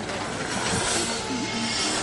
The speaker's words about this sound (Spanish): Aparecen en el andén 9 y 3 cuartos junto al expreso de Hogwarts.